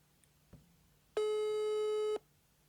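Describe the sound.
A telephone busy signal after a call is rejected: one steady, buzzing tone rich in overtones, lasting about a second, preceded by a faint click and followed by quiet.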